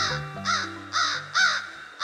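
A crow caws several times: harsh, nasal calls repeat at a fairly regular rhythm, each loud and distinct against an otherwise quiet background.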